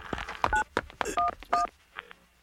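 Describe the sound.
Touch-tone telephone dialing: a few short two-note keypad beeps, fairly faint, separated by soft clicks and handling noise.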